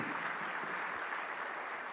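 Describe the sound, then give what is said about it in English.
An audience claps hands during a church service, producing a steady, dense wash of applause that stays even and fairly faint throughout, with no gaps. “Let's give a hand clap to the Lord.”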